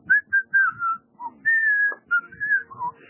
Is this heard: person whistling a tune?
yes